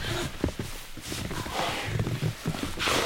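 Footsteps shuffle and crunch inside a hollow giant sequoia tree, several irregular steps over a rustling floor, moderately loud.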